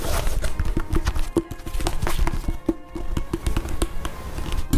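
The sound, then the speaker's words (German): Someone opening a product's outer packaging: a busy run of sharp taps, clicks and crinkles at an uneven pace. The handling noise is moderately loud and heard with no talk. “wenn Sie einmal so freundlich wären und die Außenverpackung öffnen würden”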